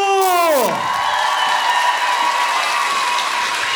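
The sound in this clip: Audience applause and cheering greet a performer at a live stage introduction. Dense, steady clapping fills the whole clip at an even loudness, with a short falling tone at the very start.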